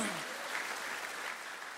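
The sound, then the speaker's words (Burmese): An audience claps in praise during a church sermon. The hand clapping is faint and continuous, a soft, even patter that tapers slightly toward the end. “ဟာလေလုယာလက်ခုပ်တီးလက်ဖျားကိုချီးမွမ်းရအောင်အာမင်”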